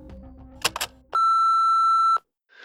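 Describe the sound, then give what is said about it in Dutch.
Voicemail beep: one flat electronic tone holding about a second, after a few quick clicks and followed by faint noise as the recorded message starts. “Even luisteren naar de voicemail.”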